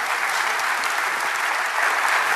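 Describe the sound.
Audience applause during a sermon: dense, steady clapping from many hands, sustained evenly throughout with no individual voices standing out.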